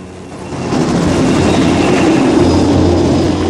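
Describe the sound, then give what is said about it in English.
Helicopters fly overhead toward Manhattan, a loud, steady roar of rotors and engines that swells over the first second and then holds at full strength, with no voices. “Helicopters fly over it and head toward Manhattan.”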